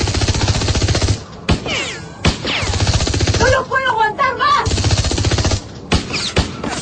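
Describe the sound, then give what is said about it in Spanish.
Automatic machine-gun fire in a radio drama battle: long, loud, rapid bursts broken by brief pauses, with warbling electronic effects in the middle. “Diana los mantiene alejados con el picante fuego de la ametralladora automática.”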